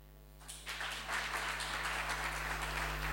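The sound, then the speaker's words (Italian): Applause for the family of an honoured marshal: many hands clapping that start abruptly over a steady low hum and quickly build to a sustained, even roar. “No, io volevo un applauso alla famiglia”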